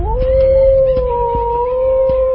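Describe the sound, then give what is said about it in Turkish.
A wolf howls in one long, sustained tone that rises at the start and then holds nearly level, clear and loud throughout. “Kurt mu? Aman Allah'ım, ben çok korkuyorum”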